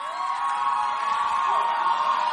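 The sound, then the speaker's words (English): A church audience cheers and whoops to welcome a woman up to give her testimony, a sustained, fairly soft wash of voices with high shouts rising out of it. “Put your hands together as we welcome Annabelle.”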